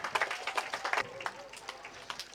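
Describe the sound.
Scattered clapping from a church audience acclaiming the Virgin Mary, with a few voices mixed in; the claps come irregularly at moderate loudness throughout.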